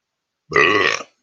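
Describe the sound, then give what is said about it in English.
A single loud, croaky burp lasting about half a second, heard alone with silence before and after. “Pardon me, I'm in a burp.”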